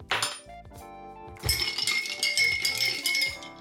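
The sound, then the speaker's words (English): Ice clinks and rattles as it is stirred in a glass with a shot of vodka for a brunch Bloody Mary. Many bright, quick clinks follow one another, loudest in the second half. “grab some ice and get a shot of vodka. Give that a stir.”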